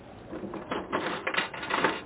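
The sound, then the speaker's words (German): Coin dropped into a poem capsule vending machine and its crank turned, making a string of clicky metallic rattles and ratcheting clatters of steady loudness with a few sharper knocks toward the end. “20 Cent rein und drehen. Schon hat man eine kleine Kapsel in der Hand mit einem Zettelchen drin.”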